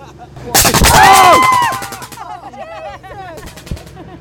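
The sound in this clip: A loud gunshot effect bursts out on a haunted hayride at the Spooky World attraction, a single sharp crack followed by screams and excited voices.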